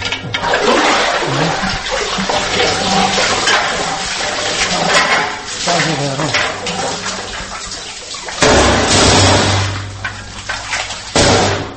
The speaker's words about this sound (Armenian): Երազգավորսում շատերը ստիպված օգտվում են արտեզյան, այսինքն հորի ջրից։